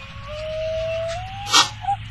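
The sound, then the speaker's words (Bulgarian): A yellow dog whines in a thin, high tone that holds steady and rises slightly, followed by a brief sharp burst and then a short second whine. “Жълто куче!”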